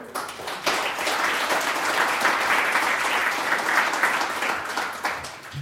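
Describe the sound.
An audience applauds to welcome a speaker. The clapping starts after a short quiet moment, builds to a steady, dense patter and stays even until the end.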